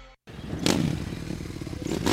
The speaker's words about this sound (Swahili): Umenunua pikipiki?